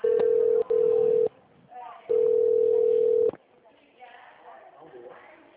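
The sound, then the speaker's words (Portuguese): Telephone line tone during a call transfer: two short, steady mid-pitched beeps followed by a longer one, then low murmuring line noise. “Iremos transferir sua ligação para um de nossos atendentes. Aguarde, estamos transferindo sua ligação.”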